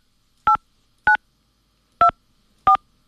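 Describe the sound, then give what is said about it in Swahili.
Four telephone keypad tones are heard as a password is entered, followed by the pound key. Each is a short, clean electronic beep, separated by brief silences. “Please enter your password followed by the pound key.”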